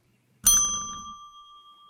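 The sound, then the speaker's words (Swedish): A small bell struck once, giving a bright, clear ring that sustains and slowly fades. “kan du plinga en gång till”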